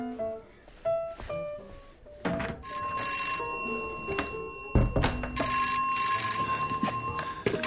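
An incoming call rings on a telephone with a bell. Two long, bright, metallic rings are heard alone, preceded by a few short thumps.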